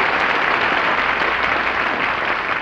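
Studio audience applause: a loud, thick, continuous roar of many people clapping at once, steady in level from start to finish.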